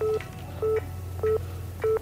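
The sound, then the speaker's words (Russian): Telephone beeps from a handset after the other side hangs up: four short, evenly spaced, mid-pitched tones repeat over a steady low hum. “Отец Миши слушает гудки и опускает трубку на аппарат.”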